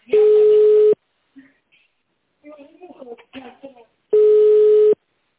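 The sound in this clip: Telephone busy signal: two long, steady, mid-pitched tones a few seconds apart, loud and even, with a brief stretch of speech between them.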